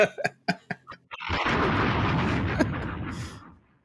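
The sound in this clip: A bomb explosion sound effect: a quick series of short, sharp pops leads into a long, loud rumbling roar that holds steady, then fades out.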